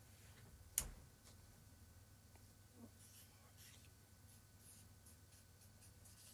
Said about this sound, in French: Là, il est en train d'écrire sur...